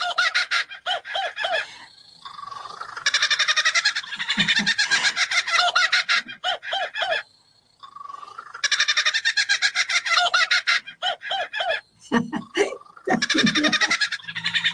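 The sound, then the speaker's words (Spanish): A mimicking bird imitates a kookaburra's laughing call: two long, dense bursts of rapid cackling notes, with shorter chattering and hooting calls before, between and after them. “de hecho es una imitación casi perfecta que engaña a los propios imitados. Aquí la vulgarmente llamada cucaburra. Escúchala, es increíble.”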